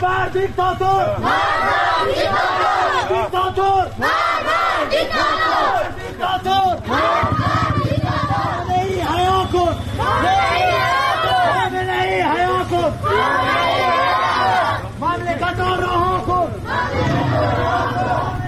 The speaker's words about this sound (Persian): در شهر رازکم مردم معترض به خیابان اومدن، اونجا هم در حمایت از مولوی نقشبندی امام جمعه اهل سنت راز که به دادگاه ویژه روحانیت احضار شده اومدن تو خیابون، همچنین در حمایت از مولوی عبدالحمید که ما صدای اونجا رو هم داریم.